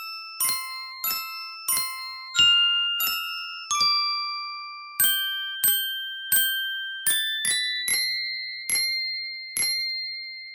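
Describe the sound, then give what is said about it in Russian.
An icicle-phone, a winter instrument made of icicles, played as a simple melody: more than a dozen bright, bell-like struck notes, each ringing clearly and then fading, with a brief pause partway through. “Сосулькофон – уникальный зимний инструмент. Сейчас его изобретатель Морковкин продемонстрирует, как он звучит.”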